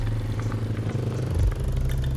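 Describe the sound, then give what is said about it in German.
A motorcycle engine drones steadily as the bike is ridden through busy Venezuelan traffic, a low, even rumble with light mechanical clatter throughout. “Wir versuchen da jetzt trotzdem mal hinzukommen mit dem Motorrad.”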